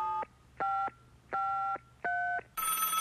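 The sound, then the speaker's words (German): Telephone tones during a call to a children's and youth helpline in Düsseldorf: four evenly spaced electronic beeps, each built of two steady pitches, then a hissy burst of line noise, with no talk. “Na, dann rufen wir mal an.”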